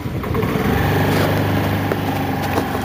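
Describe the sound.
A vehicle engine drones steadily while driving through city streets in Chennai. The tone is a buzzy, light, motor-like hum that holds an even, loud level throughout, and no voices are heard over it.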